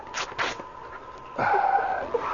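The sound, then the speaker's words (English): Shirt fabric rips in a single rasping tear lasting about a second, preceded by a few soft, brief rustles. “Good thing my right arm still works. There. Now, rip the shirt.”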